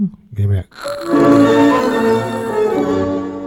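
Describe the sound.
A tango recording plays, with sustained melodic tones and a rich harmonic accompaniment following a brief, broken opening sound.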